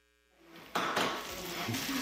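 Pans and cutlery clatter as a burger cooks at home after work, with a quiet start giving way to a loud, steady frying sizzle and occasional metallic clinks.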